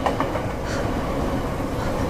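Steady rumble of a subway train, a dense, even roar of wheels and motors that holds at constant loudness throughout with faint rattling texture and no voices.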